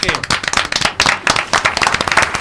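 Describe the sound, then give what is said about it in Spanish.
Loud applause from a crowd after a toast at a celebration, with dense, rapid, steady clapping that keeps going for the whole span. “Un aplauso, por favor.”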